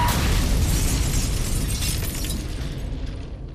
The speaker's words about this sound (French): Ce bruit-là, tout proche, c'est le bruit de la peur. Une explosion à proximité